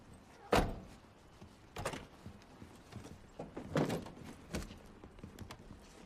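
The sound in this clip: Clunks and thuds of a van's back doors opening and bags being loaded into a black car's trunk: a few sharp knocks spaced apart, with quieter rustling and shuffling between them.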